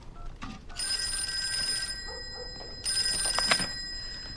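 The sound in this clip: A telephone rings in the Wheeler home, two bursts of bright, trilling bell separated by a short pause.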